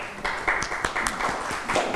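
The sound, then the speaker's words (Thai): Classroom clapping for a student, a few scattered hand claps from classmates, fairly quiet and brief, with no one speaking. “เก่งมากปรบมือให้เพื่อนหน่อยค่ะ”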